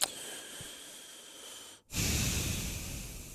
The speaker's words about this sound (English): you're scaring me with the sighs and the deep breaths